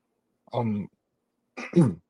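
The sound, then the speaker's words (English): Two short, throaty coughs about a second apart, the second slightly louder and rougher, heard alone with no talk around them. “got a little cough there”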